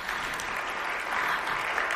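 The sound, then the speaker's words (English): Audience applause for the panelists at the close of a panel discussion, a dense, steady wash of many hands clapping that holds at an even, fairly loud level for the whole stretch with no clear voices. “Please give our panelists an amazing round of applause.”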